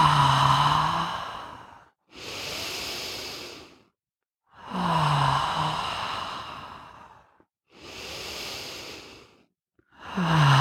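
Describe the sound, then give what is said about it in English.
Deep breaths are drawn in through the nose and let out through the mouth: five slow, airy breath sounds alternate as inhales and exhales, separated by short pauses, with no talking. “Let's do three nice deep cleansing breaths in through the nose, into your heart, out through your mouth.”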